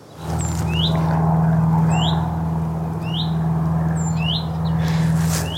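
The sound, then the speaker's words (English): Calls of a willow warbler or chiffchaff, five thin, rising whistled upslurs spaced roughly a second apart with a few fainter high notes between, over a steady low hum. “it was either a willow warbler or a chiff-chaff. But anyway, that sound was its call. Here's a reminder of the call.”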